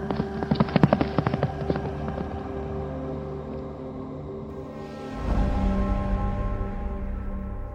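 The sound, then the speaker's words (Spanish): A horse's hooves clatter in a quick, uneven burst near the start, then give way to sustained musical tones and a low swelling rumble. “al ver a mi caballo a 10 pasos de mí, lo monté de un salto y partí al galope.”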